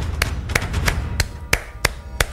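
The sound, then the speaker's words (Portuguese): Hand clapping: seven sharp, crisp claps at an even rhythm of about three per second over a low background murmur. “Deixa eu bater palmas aqui”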